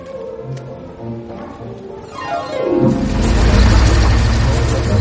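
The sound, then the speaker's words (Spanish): A car drives up and arrives at a film studio lot in 1955 Los Angeles. Its low engine rumble swells in after softer tones and stays loud and steady to the end. “El coche donde viaja Mike Todd llega a la sede de Artich Studios.”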